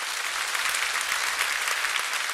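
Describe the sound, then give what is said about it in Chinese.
Steady applause from an audience clapping during a worship service at a Christian camp, a dense, even wash of many hands that holds at a constant loudness throughout, with no voices on top. “我们再次拍手给圣灵。”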